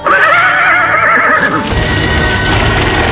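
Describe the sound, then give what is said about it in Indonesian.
A horse gives one loud, high whinny and then leaps off to run among trees. Rhythmic hoofbeats follow the neigh. “Endang Kusuma Dewi menepuk-nepuk kepala kudanya. Setelah meringkik sekali, binatang itu segera melompat dan berlari di sela-sela pepohonan.”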